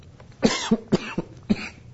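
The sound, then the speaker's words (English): A fit of coughing: a quick series of about five harsh, chesty coughs in uneven rhythm, each a short loud burst separated by brief gaps. “coughing starts.”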